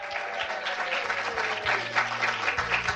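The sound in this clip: Audience applause for a speaker introduced at a Heritage Foundation event, a dense, steady clatter of many hands clapping that continues evenly throughout.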